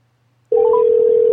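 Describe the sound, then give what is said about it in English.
A telephone tone sounds as an outgoing call is placed: one steady tone starts abruptly after near silence and holds loud and unbroken to the end. “Let me call one more caller and see what the deal is.”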